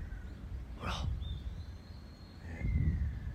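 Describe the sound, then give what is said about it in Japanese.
Faint, thin, high whistled chirps of small birds at the Nago Castle ruins park lookout in Okinawa. A couple of drawn-out notes sound over a quiet background, and a person speaks a brief word near the start. “なんかスピーカーから流れてる小鳥の声かなって そうそう そうセンサーとか言ってましたね。 センサーかなと思って”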